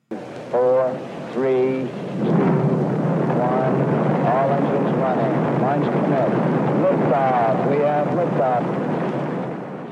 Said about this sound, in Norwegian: Her ser vi Apollo 11 bli skutt ut med kurs for månen også.